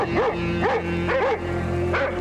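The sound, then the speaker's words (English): A neighbor's dog barks several short, high, yipping barks in quick succession over a steady low hum. “Neighbor's dog came over.”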